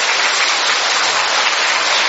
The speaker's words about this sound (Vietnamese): Một tràng hoa tay thật lớn để chúng ta chúc mừng ngày này.